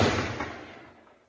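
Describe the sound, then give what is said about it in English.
Gunfire during an embassy firefight as a small assault team meets fierce resistance on the ground floor, a loud sharp burst whose booming tail fades away over about a second. “A small assault team went in on the ground floor and were met with fierce fire that you can hear from the handful of Colombians that were still inside.”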